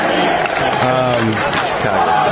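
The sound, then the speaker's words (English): A crowd at a Chicago Bulls basketball game chants "Fire Nagy", many voices joined in a loud, sustained, rhythmic unison chant that holds steady for the whole stretch. “They're at the freaking Bulls game, and they're starting to fire Nagy chant. I figured you'd appreciate that. Welcome to the Chicago Bulls game. Fire Nagy right then.”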